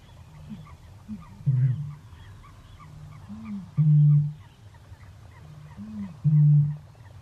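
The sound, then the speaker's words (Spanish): A played recording of the great bittern's call: three deep, loud, hollow booms, roughly evenly spaced. Each boom follows softer low grunting notes over a steady low background. “Vamos a recordar el sonido que emite el ave toro porque también es peculiar. Le pedimos a nuestro técnico que lo vuelva a lanzar.”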